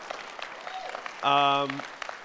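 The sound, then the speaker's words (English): A church audience gives a round of applause for its worship arts team, light, scattered clapping at a low level with a brief, sustained tonal note rising out of it midway. “Can we just give them a round of applause?”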